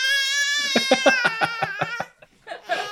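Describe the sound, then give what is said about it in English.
Baby crying in a quick run of short, high-pitched, sobbing pulses, then a brief pause before another cry. “Audience, if you hear a baby in the background, that is my baby.”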